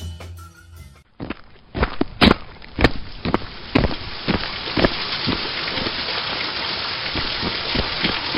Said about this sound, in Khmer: ហើយភ្លៀងទៀតហើយ តោះរត់ក្រោមដំបូលនោះទៅ